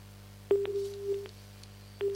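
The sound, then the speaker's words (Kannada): Telephone busy tone after a dropped call: two steady, mid-pitched electronic beeps, the first long and the second starting near the end and still sounding at the cut, with a few faint clicks on the line and no talk. “ಓಹೋ, ಯಾಕೋ ಕರೆ ಕಟ್ಟಾಯ್ತು.”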